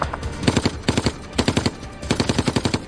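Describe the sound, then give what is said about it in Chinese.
German machine gun fire in an urban battle across a town square: several loud, rapid bursts of sharp cracks, separated by short pauses. “广场对面的一名德国机枪手挡住了他们前进的道路。”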